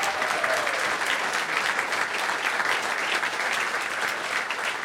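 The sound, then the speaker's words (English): Sustained applause from an audience for two musicians on stage, a guitarist and a pianist, at a live nightclub performance. Dense, steady clapping holds at an even, fairly loud level throughout, with no voices standing out. “Before moving on, please, a round of applause for these two incredible musicians on stage with me tonight.”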